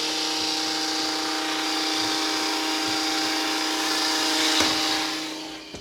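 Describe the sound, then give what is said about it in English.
A hedge trimmer cuts hedges outside a shut window, giving a steady, buzzing motor drone that holds for several seconds and eases off at the end. “I wasn't expecting them to trim the hedges right outside of our window now doing this, so I had to shut the window.”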